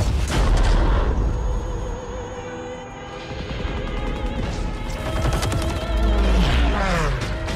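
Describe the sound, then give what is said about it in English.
Gunfire and booming blasts from a Call of Duty video game trailer, a dense, sustained barrage of loud shots and crashes with no pauses. “What you're hearing right now is not audio from a new movie directed by Steven Spielberg or starring Tom Hanks, but it's a trailer for a video game, the newest iteration of Call of Duty, a massively popular first-person shooter video game.”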